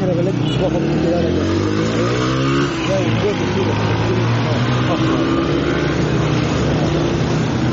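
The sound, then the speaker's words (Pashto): Cars drive fast along a big road in a continuous loud roar of engines and tyres, with revs swelling and easing as vehicles speed past. “قدرمن اوریدونکو دغه وسه دغه لوی سرک ته په دی اړو ګاډی په تیز را روان دي”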